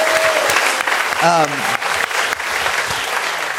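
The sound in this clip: An audience at a live show applauds, a steady, dense wash of clapping that fills the whole stretch while a voice calls out over it.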